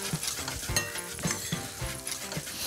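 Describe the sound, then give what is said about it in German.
Paprika powder, salt and pepper sizzle as they roast in a pan: a steady, hissing fry broken by a few light stirring scrapes and taps. “Rösten ist auch immer lecker, wenn der Paprika so ein bisschen anröstet.”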